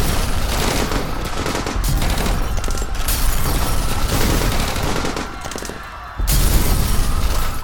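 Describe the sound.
Staged rapid gunfire, with dense machine-gun bursts and overlapping shots, fills the scene loudly. After a brief quieter lull near the end, a fresh heavy volley follows.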